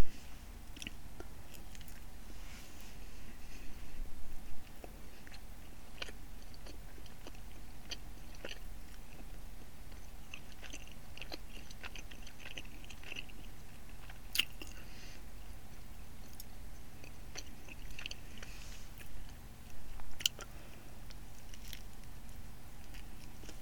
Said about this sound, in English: and I like to wrap my salami around my string cheese and eat them together? I think it's delicious.